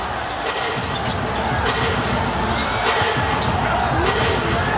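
Basketball bouncing during a three-point shot attempt, its thuds buried in a dense, steady wash of crowd noise with no clearly separate bounces standing out.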